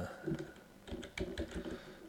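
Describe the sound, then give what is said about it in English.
Fingers type a search into a computer keyboard: bursts of quick, crisp key clicks, broken by a short pause before a faster run of strokes. “let me pop over to eBay. I think I did this before, and see if I can even find anything with that. And let's type in”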